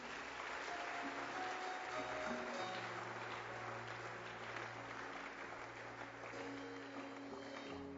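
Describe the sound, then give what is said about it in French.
An audience applauds during a church service, steady and dense clapping that continues for the whole stretch without a clear break. “Nous allons acclamer pour les bien-aimés.”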